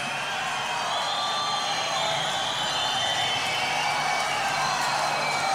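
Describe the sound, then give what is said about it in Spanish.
An audience cheers and whoops in a gymnasium packed for the closing night of a folk festival in Patagonia, a sustained, even roar of crowd noise. “Debemos decir que tenemos un gimnasio colmado de público a esta hora de la madrugada, como ha sido la tónica durante estas tres noches ya.”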